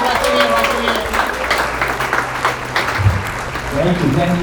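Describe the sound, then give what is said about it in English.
Applause from a comedy show audience as a comedian is introduced: dense, steady clapping that fills the whole clip, with cheering voices mixed in throughout. “I want y'all to put y'all hands together and give a warm welcome to Johnny Aaron!”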